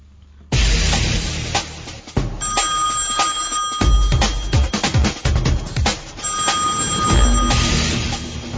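A telephone rings unanswered, two sustained bursts of steady tonal ringing standing out over loud, broad static-like noise and clatter.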